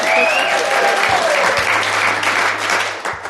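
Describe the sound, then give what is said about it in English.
Applause from a live audience in Phoenix, a dense and steady wash of clapping that stays loud for the whole few seconds and eases slightly near the end, with a low hum beneath. “As you can hear, we are recording in front of a live audience.”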